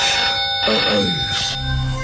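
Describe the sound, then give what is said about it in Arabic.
A telephone ringing at night, a bright, sustained bell trill running through the whole clip over a dense background. “التلفون بيرن”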